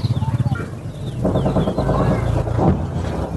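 Chickens calling in a farming district of Kandahar during wartime: a quick run of rhythmic clucks gives way to louder, sustained squawks and cackling calls.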